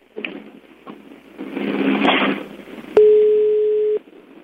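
A telephone call tone sounds as a call is placed on a public line: one steady, fairly loud tone lasting about a second, after a stretch of rustling, noisy background.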